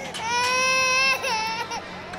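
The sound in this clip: A two-year-old girl cries from hunger in loud, wailing sobs with a harmonic, strained voice. A long cry breaks into shorter, wavering whimpers toward the end.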